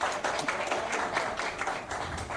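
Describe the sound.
Audience applause for a guest introduced at a formal event with a head table: a steady wash of many claps at moderate level, with no voices.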